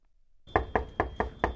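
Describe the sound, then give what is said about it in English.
Knuckles rap five times on a residential door near studios in Culver City. The sharp, loud knocks fall in a quick, fairly even rhythm, with nothing else heard around them. “went to knock on some doors near our studios in Culver City”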